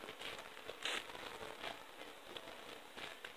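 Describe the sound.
Peeling something off a tied leg of meat gives a soft, steady crinkling crackle with a few brighter snaps, one sharper burst standing out near the first second.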